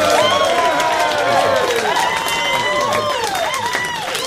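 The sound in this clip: Audience applause and cheering welcome a new show host: dense, loud clapping with whistles and shouts throughout, easing slightly toward the end.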